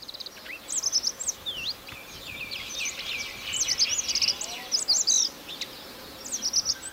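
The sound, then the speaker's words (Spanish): Song of a Radde's accentor (Prunella ocularis), a small Caucasus bird: faint repeated phrases of short, soft, quickening high notes ending in a brief trill, over a steady hiss of background noise. “Ahí se le oye bajito, pero está. Está cantando el acentor de Rat. Su canto consiste en una serie de notas cortas, suaves y aceleradas que culminan en un trino breve.”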